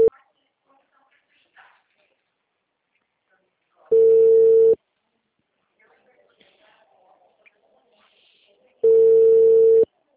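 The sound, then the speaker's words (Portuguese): The ringing tone of an outgoing messaging-app voice call comes as two steady bursts at a single pitch, each under a second long and about five seconds apart, with only faint low rustles in the gaps. “Ele toca toda vez que eu faço uma ligação agora. Aí aparece isso e fica ligando pra pessoa.”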